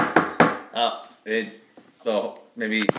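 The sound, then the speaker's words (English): Two sharp knocks on a door sound in quick succession, then a person talks. “I'll go and answer that door.”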